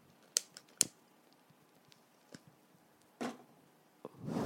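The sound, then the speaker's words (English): A grill lighter used to light a joint gives a few sharp, faint clicks, then short soft hissing bursts toward the end, over a quiet background. “I have my mom's grill lighter, if you're wondering what that sound was.”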